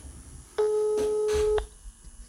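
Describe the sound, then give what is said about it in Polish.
A telephone ringing out on a call to a member of parliament's office in Rzeszów, one steady, long ring tone about a second in length over a low background hum. “Dziś kolejny raz zadzwonię do posła Burza w Rzeszowie.”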